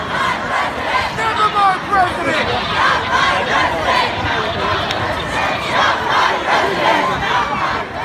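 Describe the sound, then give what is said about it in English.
Protesters in a large crowd chant a repeated slogan rejecting the president. The massed voices stay loud and steady throughout, with shouts rising above the roar. “Did you hear that? Not my president, not my president.”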